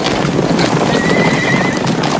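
Hooves of a riderless horse gallop in a fast, loud, continuous clatter, chased by soldiers' horses, and a high drawn-out whinny rises over the hoofbeats midway.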